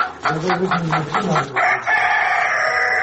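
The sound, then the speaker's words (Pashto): Chickens and roosters scratch among leaves and twigs in a house courtyard in Dhaka, giving a run of rhythmic clucks followed by a loud, drawn-out crow. “په دغه پاڼو او خاشو کې یو شمېر چرګې چرګان مشوکي وهي.”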